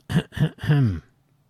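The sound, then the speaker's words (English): A person clears their throat deliberately for effect, three short voiced bursts, the last one longest, heard alone with no talk around it. “That was not an actual throat clear. That was a for effect.”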